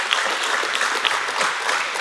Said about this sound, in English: give him a round of applause for that